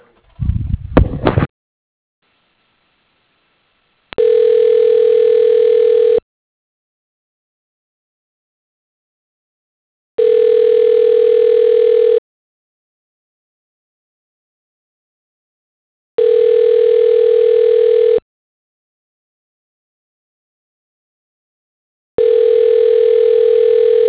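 Telephone ringback tone while a call is transferred to an office extension: a brief burst of clicking noise, then four steady, identical two-second tones repeating evenly with silent gaps between them.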